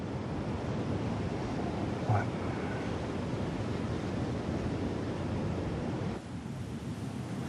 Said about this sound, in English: The sun shines down as they sit side by side on the beach sand with a view of the whitecaps rolling in.